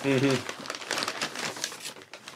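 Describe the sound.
Crinkling of a bag being opened, a busy stream of crackly plastic rustles and crumples following a brief voice at the start.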